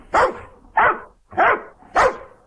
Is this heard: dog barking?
yes